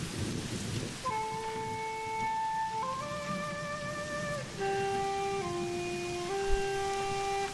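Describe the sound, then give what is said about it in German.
Rain recorded with clipping distortion makes a harsh, overdriven hiss that is steady but uneven in loudness. A flute plays a slow line of held notes over it throughout. “Regen, der übersteuert.”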